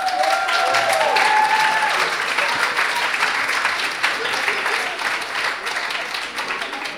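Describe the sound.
An audience applauds after points are announced at a school contest. The clapping is dense and sustained, starts loud and gradually thins and softens toward the end.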